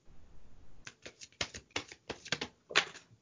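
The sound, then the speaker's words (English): A deck of playing cards being shuffled, a quick series of crisp fluttering riffles and snaps that grow busier and louder, heard alone without talk. “Pull the deck of cards out. So yeah, all she did was pull a deck of cards out.”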